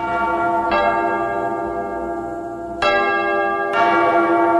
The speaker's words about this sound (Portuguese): Repito, toca o sino, sacristão.